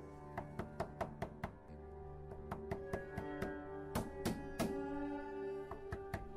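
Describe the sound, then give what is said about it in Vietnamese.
A fist pounding on the locked door of a small single-storey rented house: many sharp, irregular knocks, faint overall, over a continuous musical background. “Quân đập cửa rồi gọi”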